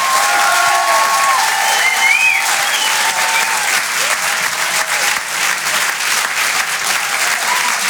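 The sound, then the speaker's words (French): Applause from an audience at a stand-up comedy show: dense, steady clapping that fills the whole stretch at an even, loud level, with no voices standing out. “Merci beaucoup, faites du bruit pour Gumpo. Pour Fonzo, s'il vous plaît.”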